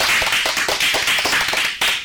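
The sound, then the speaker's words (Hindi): Children applaud at a school general-knowledge quiz. The clapping is dense and steady, with a light pulsing beat, and runs unbroken for about two seconds. “जोरदार तालियां हो जाए।”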